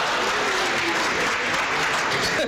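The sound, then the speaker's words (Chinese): Thunderous applause from an audience: a dense, steady roar of clapping that stays loud throughout and drops off at the very end. “谢谢大家雷鸣般的掌声，谢谢。”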